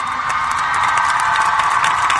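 An audience applauding at a public event in Mexico: dense, steady clapping mixed with cheers, loud and even from start to finish.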